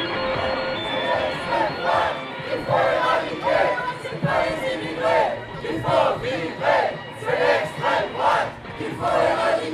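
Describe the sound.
Protesters at a demonstration chant loudly in unison, their voices rising and falling in regular rhythmic bursts over a continuous crowd murmur.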